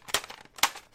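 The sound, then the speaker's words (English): Cassette tapes being stacked, giving a dry plastic clatter with two sharp crinkly bursts and lighter rattles in between, short and alone. “That's a stack of cassette tapes.”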